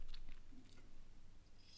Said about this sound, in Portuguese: Desculpem, tinha que beber água.